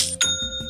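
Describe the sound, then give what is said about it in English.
A bright notification chime signalling an online store sale: a short, clear bell-like ring with sustained high tones that is struck again just after the start, heard alone without voices. “Aha, you know what that sound means. It's the sound of another sale on Shopify”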